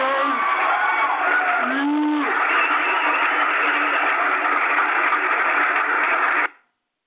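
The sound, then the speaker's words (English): An audience cheers at an artist line-up show, a dense, steady roar of crowd noise with a few voices rising above it early on, then cutting off abruptly near the end. “I get the audience in the background. That's the stuff.”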